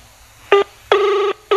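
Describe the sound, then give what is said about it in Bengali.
Touch-tone keypad beeps sound as a telephone number is dialed: three clear tones, a short one, a longer held one and a third cut off at the end, crisp and alone with no talk. “দেখি একটা phone করি দেখি।”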